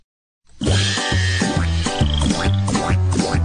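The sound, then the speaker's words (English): Frog croaking: deep, resonant croaks repeat steadily about twice a second. They begin abruptly after a short silence and keep an even rhythm and loudness to the end. “and finally the children got to hear the frog singing”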